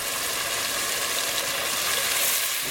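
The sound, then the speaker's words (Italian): Steady hissing sizzle of a fresh salmon fillet browning in a pan with a little oil, a continuous even fry noise without breaks from start to end. “Rosolare un filetto di salmone fresco in padella con un filo d'olio, senza salare.”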